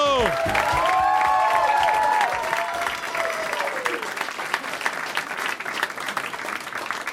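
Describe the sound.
An audience applauds a stand-up comedian with dense, sustained clapping and some cheering. A voice calls out over it at the start, and the applause gradually thins toward the end.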